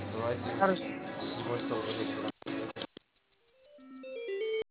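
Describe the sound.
A short melodic telephone tone of a few stepped notes plays while a call to a café is transferred. It follows a stretch of phone-line talk and a brief silence, then rises in loudness to the end.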